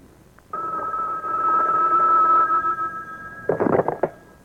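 A telephone rings with a sustained, steady electronic tone, followed by a few choppier, broken bursts near the end.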